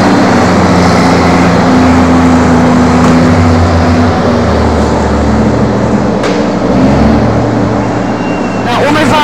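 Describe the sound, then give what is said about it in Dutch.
Heavy engine drone of a wheel loader moving to clear a burning barricade, loud and continuous with rough mechanical rumble and a few sharp knocks near the end. “En de shovel die maakt even plaats.”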